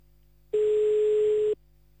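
Ringback tone on a telephone line while calling someone back: a single steady, mid-pitched electronic tone about a second long, with quiet line hum before and after.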